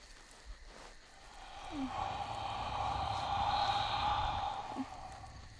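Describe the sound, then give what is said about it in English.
A long, soft breath is blown out onto someone, a steady breathy hiss that swells and fades over a few seconds, heard alone without talk. “Come, let me breathe on you.”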